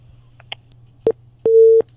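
Telephone tone after a call is cut off: a few faint clicks, then a brief beep and a longer steady tone at the same pitch, over a low hum.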